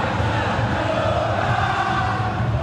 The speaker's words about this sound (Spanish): Público. Escuchen el público. El público es soberano.